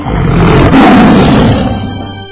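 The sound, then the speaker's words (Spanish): A tiger roars at a circus under a tamer's control: one long, loud, rough roar that runs continuously for about two seconds and fades slightly at the end, with no other sound. “Entonces veía yo al domador cómo dominaba a los tigres así. Pinche tigre rugía y el domador hacía su cachetada.”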